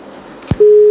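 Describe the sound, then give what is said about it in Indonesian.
A telephone line cuts off during a call: a short click gives way to a loud, steady, unbroken disconnection tone that holds to the end. “Oh, sayang sekali Mama Iti terputus.”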